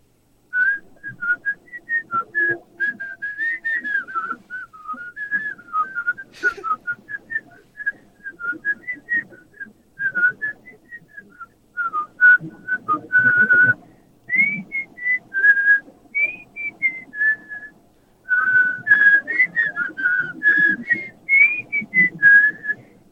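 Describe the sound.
A person whistles a very high-pitched tune in several melodic phrases separated by short pauses, clear and fairly loud, with no talking.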